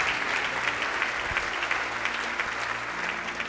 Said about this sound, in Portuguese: aplauda o Senhor, aplauda com alegria.